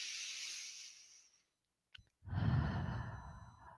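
A person breathes slowly: a long airy inhale that fades into a short pause, then a deep, sighing exhale with a low voiced rumble under the rush of air.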